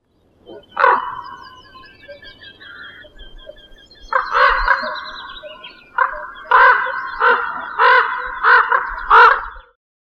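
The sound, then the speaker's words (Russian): A raven calling with deep, harsh croaks, loud against silence: one isolated call, then after a pause a cluster of calls, followed by a fairly regular run of several more. “Ворон.”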